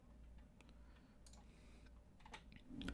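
Computer mouse clicks while browsing an online shop: a few soft, faint clicks spaced apart over a low, steady background hum.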